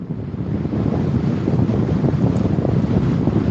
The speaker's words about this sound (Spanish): y el viento sigue. Lo podemos sentir. Es un látigo en nuestra piel. El viento se acelera.